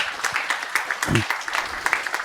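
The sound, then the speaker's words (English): An audience applauds a security researchers' talk with a sustained, even wash of clapping from many hands, moderately loud with no break. “So without further ado, another round of applause.”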